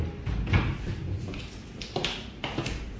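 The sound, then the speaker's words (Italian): A wardrobe door opens and closes as a rolling pin is put back on its lower shelf, giving a few faint knocks and soft thuds over a low, steady background. “riapre l'armadio e ripone il mattarello sul piano inferiore”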